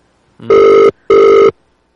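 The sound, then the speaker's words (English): A telephone ringback tone plays while someone calls back a person who hung up. Two loud, buzzing rings of equal length are separated by a brief gap, then silence follows. “She hung up. I'll call her back.”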